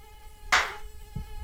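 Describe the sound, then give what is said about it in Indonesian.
Mosquitoes buzzing in a thin, steady, high-pitched whine, with a sharp slap-like burst partway through and a soft thump shortly after. “Ah, banyak banget nih nyamuknya di sini.”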